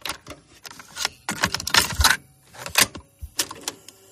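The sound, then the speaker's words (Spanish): A cassette tape is handled and pushed into a player, giving a run of irregular plastic clicks, clacks and knocks of varying loudness, with short pauses between the bursts. “me vas a permitir que ponga ahora una cinta de cassette”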